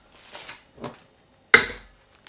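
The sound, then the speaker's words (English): A spoon measures plain flour in a kitchen for a pudding: soft scraping scoops, then one sharp metallic clink, followed by a couple of faint ticks, quiet and without talk. “I'm just going to get a spoon to measure out the plain flour. So that's two tablespoons of flour”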